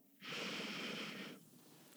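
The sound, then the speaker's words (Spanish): A single deep breath drawn in during a guided group breathing exercise, a smooth breathy rush lasting about a second before tapering off, followed by a faint click. “y vamos a inhalar juntos.”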